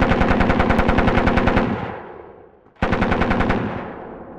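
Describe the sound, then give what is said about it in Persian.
Two loud bursts of machine gun fire. Each burst is a rapid, even string of shots that trails off, with a short near-silent gap between them and no voices. “الان ای چی بود؟ صدای رگبار چی بود؟”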